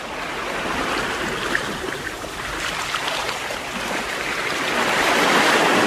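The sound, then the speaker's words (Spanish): Sea waves washing onto a sandy shore make a loud, continuous rushing hiss that swells slightly toward the end, with no voices. “sentaditos en la arena nos vamos a quedar mirando a la mar, a la orilla de la mar”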